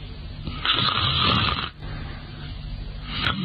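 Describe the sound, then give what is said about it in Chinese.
A voice imitates snoring, mimicking someone dozing in a chair. A loud, rasping drawn-out snore is followed by a brief break, then a longer and softer rumbling snore, with no talk. “他一看窦尔敦靠着椅子把眼闭上，呼噜出来”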